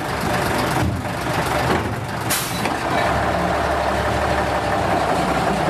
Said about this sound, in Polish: pan jest właścicielem tego pięknego, zabytkowego Jelcza, który tutaj stoi obok i słychać warkot silnika.